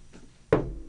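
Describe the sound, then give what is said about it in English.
Knuckles knock on wood for luck: two sharp, solid raps about a third of a second apart, preceded by a much fainter tap. “Obligatory knock on wood. Knock on wood, yep.”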